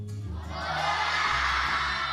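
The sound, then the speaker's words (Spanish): Nearly 200 children shout hello together in a radio studio, a loud massed burst of young voices that swells after a quieter start and holds for about two seconds. “no se cree siquiera que hay casi 200 niños, niñas aquí en el Salón de Datos. Quizás si nos dicen todos a la vez hola, pues igual se lo creen.”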